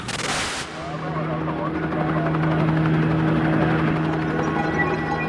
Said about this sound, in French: Dans le ciel de Los Angeles, les hélicoptères des différentes chaînes de télé survolent la ville à la recherche de la Ford Bronco blanche